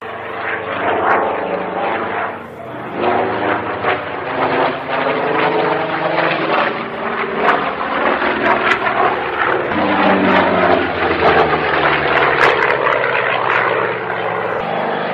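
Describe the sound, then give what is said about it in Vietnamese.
Two fighter planes fly over a capital city with a loud, continuous engine roar and propeller drone, a dense, throbbing sound that holds steady for the whole stretch with slight wavering. “Hai chiếc khu trục nối đuôi nhau quần thảo trên không phận thủ đô”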